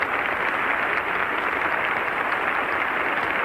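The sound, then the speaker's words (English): Sustained, dense concert applause for conductor Arturo Toscanini, with the orchestra and the chorus of the Schola Cantorum, a steady, uniform roar of clapping with no break across the whole stretch. “Mr. Toscanini is being cheered by the audience at this afternoon's concert.”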